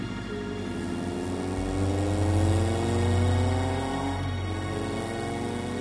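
A car engine hums steadily with a smooth, droning tone that swells and climbs in pitch through the middle, then settles back, with no voices over it.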